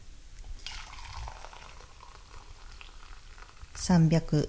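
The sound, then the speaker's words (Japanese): About 300 ml of hot water is poured into a pot of rice, making a steady hissing, bubbling wash of noise, with a voice starting briefly near the end. “300ml ほどのお湯を入れます。”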